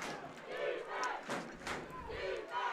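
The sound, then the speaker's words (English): Stadium crowd of Tigers fans screaming for defense at a football game, a faint, continuous roar of many voices with shouted cries swelling and easing. “Tiger faithful. You can hear them in the background screaming defense.”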